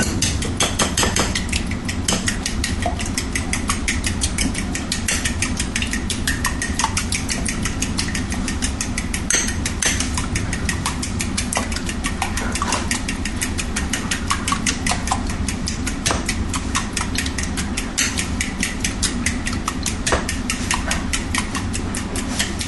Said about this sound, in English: So, let's get a fork. And we'll scramble our eggs.